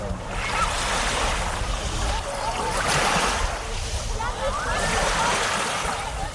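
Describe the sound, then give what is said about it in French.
Beach ambience with waves surging and washing in a broad, hissing roar that swells and eases a few times. Indistinct voices seem to mix faintly into the surf. “Voilà, ambiance de plage que vous aurez peut-être la chance de connaître cet été”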